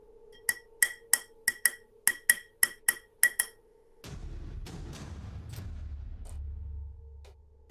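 Something pecks again and again at the same spot on a pane of glass: a rapid, even run of sharp, bright taps, then a sudden low, broad rumbling noise that lasts to the end.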